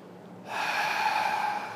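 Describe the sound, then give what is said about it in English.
A deep breath during a guided meditation class begins abruptly as a soft, airy rush and continues steadily, a sustained breathy flow with no talk over it. “We begin by taking three deep breaths in through the nose, filling your body, and out through the mouth.”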